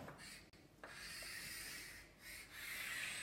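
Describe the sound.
Writing on a board during a lecture: faint, scratchy rubbing strokes that run almost continuously, broken by a few brief pauses between strokes.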